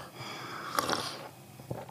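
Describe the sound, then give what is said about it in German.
A quiet sip of tea, heard as a short breathy slurp with airy hiss that swells briefly and fades, followed by a faint soft noise, no talk. “ich trinke noch einen Schluck Tee.”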